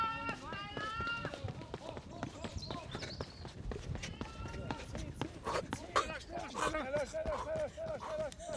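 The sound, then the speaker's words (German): Quick, even running footsteps of a 100-metre sprint pound in a fast steady rhythm, with voices sounding over them throughout. “So, 19,6 Sekunden für 100 Meter, los geht's. Ich bin aufgeregt. Huh. Und laufen, laufen.”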